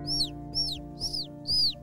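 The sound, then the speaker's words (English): Baby birds chirping outside: four high, thin chirps that each sweep downward in pitch, evenly spaced over a steady low hum. “and the baby birds are chirping outside”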